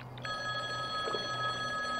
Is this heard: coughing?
no